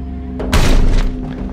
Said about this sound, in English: Police burst through the hostel front door.